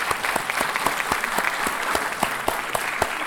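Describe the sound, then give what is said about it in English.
Audience applause at a New York Historical event on America's founders, an even patter of many hands with a few sharper claps standing out, held steady for about three seconds. “And let's give them all a great hand.”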